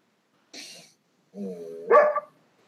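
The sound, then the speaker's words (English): A dog barks and vocalizes at its owner in a few short, mid-pitched, harmonic yelps and barks, with one louder final burst, heard on its own. “My dog's yelling at me.”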